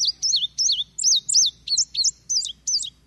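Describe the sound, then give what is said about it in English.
Indigo bunting call: a string of about nine bright, clear, high chirped notes, many sliding in quick pairs, delivered in a steady rhythm with short gaps and no voices. “we talked to Brenda in Poplarville about the indigo bunting, and Java found that call for us as well. That's it, the notes.”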